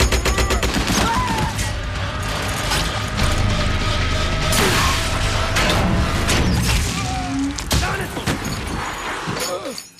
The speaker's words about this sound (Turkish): Makineliyle vur.